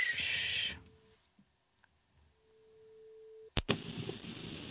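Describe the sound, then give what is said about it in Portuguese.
Telephone ringback tone while placing a call to a friend. A steady, low beep sounds twice between a loud burst of noise at the start and a sharp click followed by background noise near the end. “Vamos ligar a um amigo do Mateus.”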